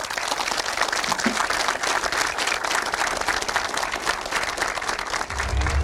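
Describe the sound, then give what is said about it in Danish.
An audience claps for a guest at a Danish talk event, a thick, steady wash of many hands that keeps an even, busy rhythm throughout with no clear break. “Til sidst, giv Frederik en stor hånd.”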